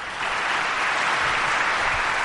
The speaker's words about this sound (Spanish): Un aplauso.